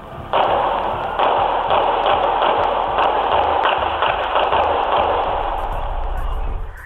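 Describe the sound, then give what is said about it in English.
Gunfire outside a bar at closing time: many sharp, rapid reports cracking over a loud, continuous noisy rumble that holds for several seconds before cutting off. “Someone just got shot at outside of Broncos on 11th Ave Southwest and 1st Street. Yeah, someone got shot by the bar. Please come, guys. Just come now. Not responding. Gunshots,”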